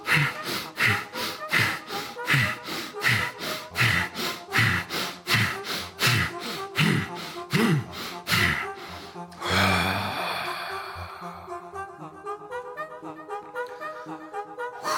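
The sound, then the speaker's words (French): Sharp, rhythmic nasal sniffs come from alternate nostril breathing, drawn through one nostril and then the other. Many quick breaths follow at an even pace, then give way to music. “Accumuler l'énergie en se tordant le nez. Respirer alternativement de la narine droite et de la narine gauche.”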